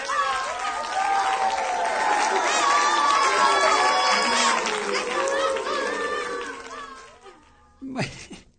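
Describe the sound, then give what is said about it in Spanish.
A live audience applauds and cheers with shouting voices, loud and sustained for several seconds, then dying away before a brief final burst. “Ahí está la respuesta del público.”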